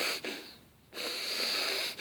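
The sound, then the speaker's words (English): A voice imitates a horse's snorting breath with two long, breathy rushes of air separated by a brief pause, the second steady and sustained. “You ever see a horse, you know, breathe?”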